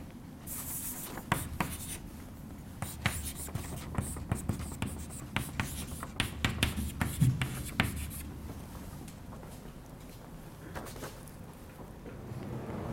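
A lecturer writes on a board during an astronomy lecture, making many quick scratching strokes in busy bursts that thin out and grow quieter toward the end.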